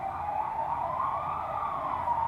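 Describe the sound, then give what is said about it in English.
Police car sirens go by as one continuous, gently wavering tone that holds at a steady loudness throughout, with no talk over it. “as the police sirens go by. With a little bit of talk, I'm going to move in closer to the microphone so you can hear me over them”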